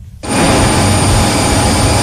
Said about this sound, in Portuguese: Em direção ao aeroporto de Estrasburgo, o avião do Braga levou algumas dezenas de adeptos.